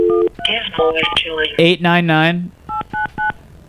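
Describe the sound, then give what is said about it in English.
Touch-tone telephone dialing for a call: a rapid string of short beeps at varied pitches, with a wavering sustained tone midway and a few more separate beeps at the end. “Can we make a call?”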